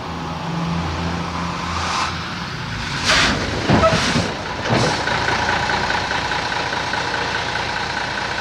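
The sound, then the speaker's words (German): A truck engine rumbles as the vehicle sways around a bend. A steady low drone runs throughout, with a few rattling, creaking bursts in the middle. “Dann schwankte der Laster um die Biegung.”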